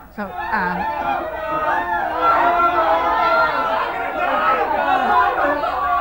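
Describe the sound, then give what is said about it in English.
Agitated crowd chatter: many overlapping voices talk and call out at once in a loud, restless babble that holds steady from start to finish. “As you can hear, the crowd is quite agitated. I'm going to hold my mic up right now,”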